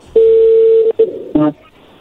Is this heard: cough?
no

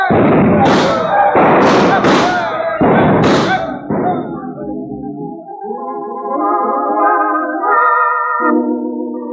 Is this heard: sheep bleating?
no

